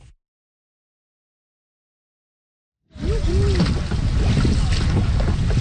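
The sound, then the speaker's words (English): A paddled boat moves on Gander Lake in central Newfoundland. After a near-silent opening, a dense rush of wind and water noise starts abruptly and stays loud to the end. “Paddling Gander Lake in central Newfoundland is a challenge. It's long, it's deep, there's the weather to deal with.”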